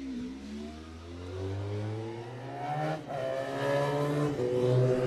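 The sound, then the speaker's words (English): A Honda RC45 factory racing motorcycle's engine holds a loud, continuous buzzing note at a road-racing event, its pitch wavering briefly midway before climbing slightly toward the end. “Philip joins us today riding his own factory RC45 Honda.”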